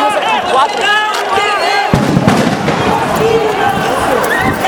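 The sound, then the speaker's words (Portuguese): A stun grenade goes off close by during a violent police crackdown on a street protest: one sharp bang cuts through crowd noise and shouting voices, and the commotion continues afterward. “Soltaram mais bomba bem perto de mim. Bomba de efeito moral.”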